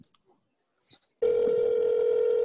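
An evening phone call rings out unanswered: a few faint clicks and short blips come first, then a loud, steady ringback tone sounds continuously to the end.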